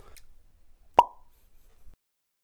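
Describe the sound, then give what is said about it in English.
A single hollow pop made by flicking a finger out of the mouth: one short, sharp plop, alone in near silence. “I made a pop sound, you know, when you put your finger in your mouth”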